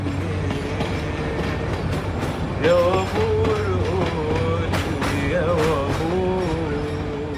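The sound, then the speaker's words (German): A train rolls through Cairo at night with its window open, giving a steady rumbling clatter with rail clicks, while a man sings over it. “Ein Mann fährt bei offenem Zugfenster singend durch das nächtliche Kairo.”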